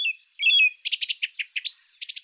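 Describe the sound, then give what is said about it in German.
Birds chirp and tweet in a forest with a rapid run of many bright, high chirps. Short calls come in quick bursts, some trilling together, and no other sound is heard. “denn die Vögel zwitscherten,”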